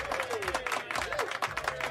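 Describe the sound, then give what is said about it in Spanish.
Applause from a group of listeners: dense, even clapping that stays at a moderate level throughout, with no pauses. “Un aplauso, pero ya inmediato, efectivamente.”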